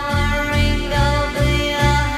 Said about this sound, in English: That song starts out in 3/4, sounds like this.